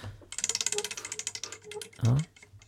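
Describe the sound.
A spinning prize wheel ratchets out a rapid, even run of sharp plastic clicks, then a brief louder voice-like sound cuts in at the end.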